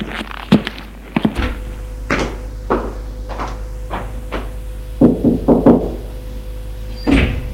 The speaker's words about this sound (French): Grand couloir, escalier de pierre. Il monte jusqu'au premier, la petite couloir.